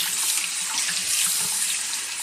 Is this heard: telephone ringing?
no

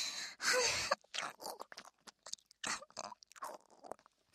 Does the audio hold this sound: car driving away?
no

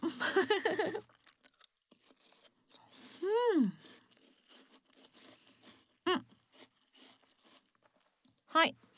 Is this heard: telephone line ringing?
no

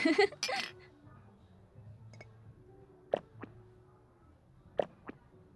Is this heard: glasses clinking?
yes

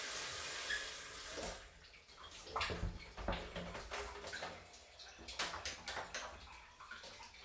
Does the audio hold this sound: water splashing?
yes

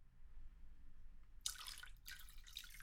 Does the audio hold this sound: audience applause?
no

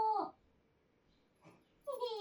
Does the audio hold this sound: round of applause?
no

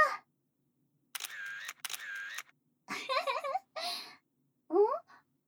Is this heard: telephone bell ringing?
no

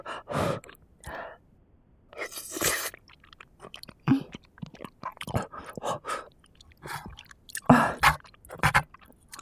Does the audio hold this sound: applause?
no

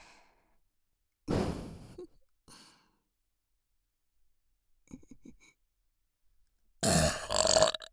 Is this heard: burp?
yes

